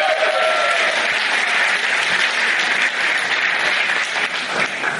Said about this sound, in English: Guys, I guess make some noise for David Shoemaker, the masked man.